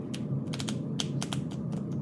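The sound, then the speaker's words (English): A deck of cards is shuffled by hand, giving quiet, irregular crisp flicks and snaps over a low, steady background hum, with no talk. “If you tell me when to stop, that's where I'll cut the deck and I'll just take the first three cards.”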